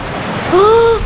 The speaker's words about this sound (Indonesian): Pantai, seger. Kuilah kita ke tengah, berenang kita.